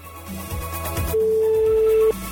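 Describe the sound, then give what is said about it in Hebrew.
A telephone line tone sounds while dialing a radio listener: one steady, mid-pitched tone lasting about a second over a low background murmur. “אז בואו נחייג לאחד או אחת מכם שעשו בחירה נכונה.”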